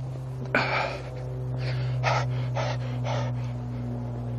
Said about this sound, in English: Pant, pant. Every muscle in my body is warm now. I can feel it getting hot.